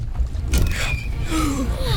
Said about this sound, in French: Les flots sont agités et ça tangue à bord des liburnes.